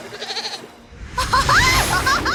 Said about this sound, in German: doch seine Ziege stürzte in die Tiefe und landete genau auf dem Dach des Autos.